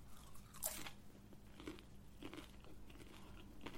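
Faint biting and crunching while eating a homemade chaat-style snack: one crisp bite stands out early, followed by a few softer crunches of chewing.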